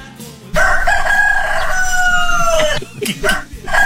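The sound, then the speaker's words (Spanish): A rooster crows one long, loud call. Its held note bends downward near the end, and a few shorter squawking sounds follow. “El canto del gallo. El canto del gallo.”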